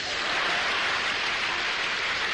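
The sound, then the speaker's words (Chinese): Applause from a seated audience at a live stage comedy performance, with dense, steady clapping that holds an even loudness throughout, and no voices heard. “那个楼上的那个掌声稍微的差了一点。”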